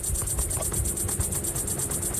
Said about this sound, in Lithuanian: Na, turbūt kiekvienas, kas ten buvo, pasakys, kad net grįžus namo, ausyse zirzia. Kas, aišku, cikados.